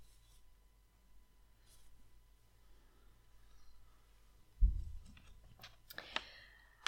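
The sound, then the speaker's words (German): Pen scratching on paper while writing by hand in a journal, faint and quiet: a soft thump followed by a few brief, scratchy strokes near the end, with no talk. “Am besten auch in deinem Journal, und dann schreib super gerne zweites Halbjahr 2020 auf.”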